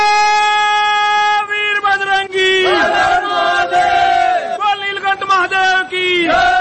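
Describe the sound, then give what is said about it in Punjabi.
Devotees chant religious slogans praising Shiva in temples during the Sawan month, a loud crowd of voices raised in long sustained cries with overlapping calls that repeatedly swell and break off. “ਮੰਦਰਾਂ ਵਿਚ ਸ਼ਿਵ ਭੋਲੇ ਦੀ ਮਹਿਮਾ ਦਾ ਗੁਣਗਾਨ ਲਗਾਤਾਰ ਚੱਲ ਰਿਹਾ ਹੈ ਅਤੇ ਮੰਦਰ ਸ਼ਿਵ ਭੋਲੇ ਦੇ ਜੈਕਾਰਿਆਂ ਨਾਲ ਗੂੰਜ ਰਹੇ ਨੇ।”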